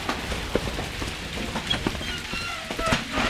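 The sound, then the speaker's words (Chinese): Heavy rain pouring at night by a river embankment during a storm, a dense, steady patter with scattered sharper drops and soft thuds throughout, no voices. “大人已经冒着风雨巡视了两次河堤了，河水并无大涨的情况，风大雨大”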